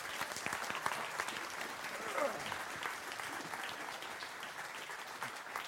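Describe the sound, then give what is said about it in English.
Faint, steady applause from the Crossroads audience welcoming a speaker to the stage, a soft continuous patter of many hands that holds at an even level throughout. “help me put your hands together and give a warm Crossroads welcome to Craig Sanders.”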